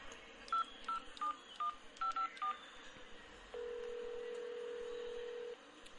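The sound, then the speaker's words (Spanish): A telephone number dialed on a keypad: a quick series of short electronic touch-tone beeps in uneven rhythm, followed by one long, steady tone, with faint line hiss throughout. “Sí, te llamo de Busco mi serie.”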